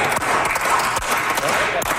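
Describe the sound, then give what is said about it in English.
Tired applause from members in the Manitoba legislature chamber after an all-night budget debate: a thin, continuous patter of clapping with a few sharper, louder claps. “Tired applause in the Manitoba legislature.”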